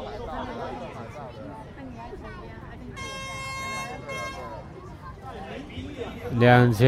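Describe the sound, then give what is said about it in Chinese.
Handheld gas-powered air horns, the kind a group of directors each carried in 2006, blast a sustained high, shrill tone for about a second over crowd chatter, then a louder, lower blast at the end. “2006年导演联盟，他们人手一支的瓦斯汽笛。”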